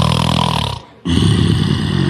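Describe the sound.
A man snores in his sleep on a bed. He is a surnay player. The rough, rattling snore is loud and drops into a brief pause near the middle, then starts again and carries on steadily to the end.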